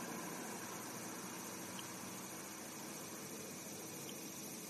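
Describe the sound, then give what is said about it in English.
Steady, soft whooshing hiss of an overhead fan spinning with the windows down, a constant faint rush of air that stays even throughout, with no voices. “The windows are down. The overhead fan is spinning. You might hear it in the background.”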